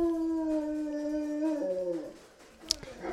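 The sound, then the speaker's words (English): An excited dog howls in one long, tonal, clear wail that sags slightly in pitch and breaks off after about two seconds, followed by a quiet pause and a single sharp click. “sorry, dog's going crazy. I can tell you, dog's excited.”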